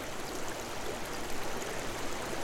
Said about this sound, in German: Unter einem Korridor von Weiden, Erlen und Eschen führt der Estena in den ersten Dezembertagen mehr Wasser als sonst üblich.